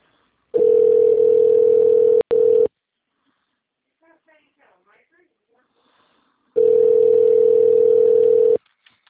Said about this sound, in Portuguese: Acho que você tentou me transferir para a Shirley, só que caiu a ligação.